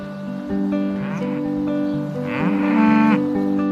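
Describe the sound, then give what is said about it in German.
Mother cows mooing as they call for their calves after leaving the milking parlor: several long, deep, overlapping moos that swell and strain in pitch over a continuous farmyard background. “Beim Verlassen des Melkstandes rufen die Mutterkühe gleich nach ihren Kälbern.”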